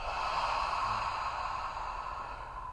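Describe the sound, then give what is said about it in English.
A long, breathy exhale from a guided breathing exercise. It is a continuous airy rush that holds steady and softens slightly toward the end, with no talk. “last round. Inhale, hold, exhale,”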